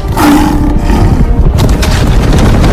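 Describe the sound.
A tiger roars during an attack in a dramatized scene, a loud, rough, sustained growl over dense low rumbling noise that fills the whole stretch.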